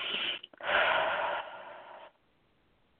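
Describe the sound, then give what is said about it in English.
A deep breath, drawn in through the nose and let out through the mouth during a guided healing session: a short breathy rush, then a louder, longer airy exhale that fades away, with no talking. “a big breath in through your nose, out through your mouth.”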